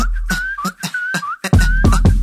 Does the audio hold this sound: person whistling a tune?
yes